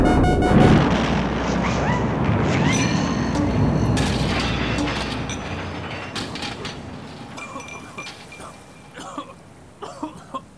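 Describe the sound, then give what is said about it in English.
A resonator exploding into tiny pieces: a loud burst of crashing, rattling noise that slowly fades, followed by a few scattered clatters and snaps of falling debris. “The resonator has exploded spectacularly into tiny pieces. There's nothing left but a few smoking ruins.”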